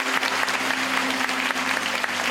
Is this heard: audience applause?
yes